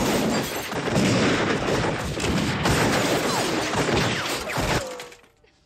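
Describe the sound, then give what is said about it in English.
Heavy gunfire with bullets ripping into a house: a dense, continuous barrage of cracks and crashing impacts that stays loud for about five seconds, then cuts off abruptly into near silence. “The gang take cover as more bullets rip into the house.”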